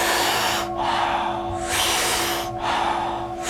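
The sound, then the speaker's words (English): Deep rhythmic breathing done together by a group in a breathwork session: long airy inhales and soft exhales in a steady cycle, loud and hissy, over a sustained low ringing tone. “we breathe in so deep that the belly and chest expand like a balloon, and the exhale is a soft exhale. We do it rhythmically, we do it together, and it sounds like this.”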